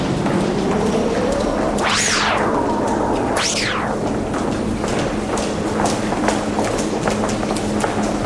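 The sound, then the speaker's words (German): Women walking in high-heeled shoes make many sharp clicking taps in a steady rhythm over a low hum, with two brief sweeping whistle-like tones early on. “Einige Leute sind woanders hingekommen, wie ich hier höre. Frauen in hochhackigen Schuhen.”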